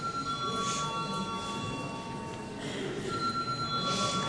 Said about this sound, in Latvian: Lūdzu zvanu.